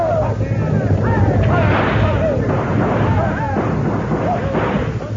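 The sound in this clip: Gunfire rings out during a buffalo hunt as riders charge an oncoming herd, forming a dense, continuous roar of shots and booms with raised voices heard over it.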